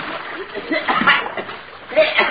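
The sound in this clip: Churning, splashing water from a man who has fallen in and cannot swim. The thrashing keeps up throughout, partly under voices.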